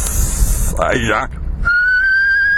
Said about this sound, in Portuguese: já emenda esse som do ar num assobio